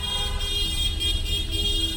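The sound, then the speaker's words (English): Car horns blare from political supporters of Lebanon's March 14th coalition in a city square, a loud, continuous honking with steady pitch that holds throughout. “On the other side of the square are supporters of the U.S.-backed March 14th coalition. They also have their own honk.”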